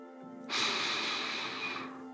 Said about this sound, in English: take a slow, deep breath.